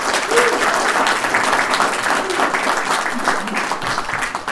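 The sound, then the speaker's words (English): Applause from an audience welcoming a guest at a comics convention talk: loud, dense, steady clapping that holds at an even level for the whole clip. “Ladies and gentlemen, can you please make some noise and welcome Mr.”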